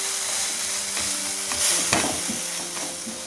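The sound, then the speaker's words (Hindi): Spices frying in a pan with asafoetida added and stirred in: a loud, continuous sizzle with scraping, clattering stir strokes throughout and no voices. “थोड़ा ही भूनना है और अब हम इसमें डालेंगे हींग ये देखिए हींग डालना बहुत ज़रूरी है इन सारी चीज़ों को हमें अच्छे से मिक्स कर लेना है”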